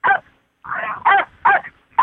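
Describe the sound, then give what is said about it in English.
Singing dogs in Ireland make short, tuneful yips and howls during an interview: five loud, pitched bursts in quick succession with brief gaps between them. “That's not the first time I've had dogs in an interview.”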